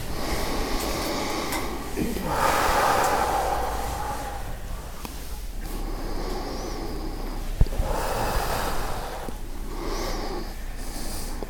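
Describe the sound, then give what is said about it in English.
Slow, deep breathing: a few long, airy inhales and exhales swell and fade in turn. The breaths are faint and alone, with no talk. “And just breathe for moments.”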